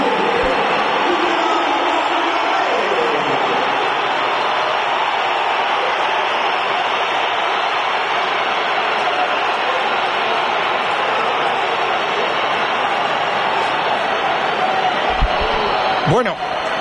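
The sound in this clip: Mass whistling from a packed football crowd at the Bernabéu, a dense, shrill, unbroken roar that holds at full strength for the whole stretch, with a commentator's voice beneath it.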